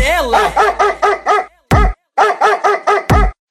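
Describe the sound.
A dog barks and yips in rapid rhythmic bursts, many in quick succession, with a few louder, sharper barks breaking the pattern.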